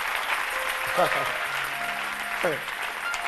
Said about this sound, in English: Give the Lord a better clap of it.